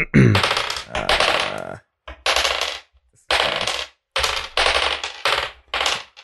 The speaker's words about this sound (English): This is good. I have not rolled a six yet. There's really something exciting about it.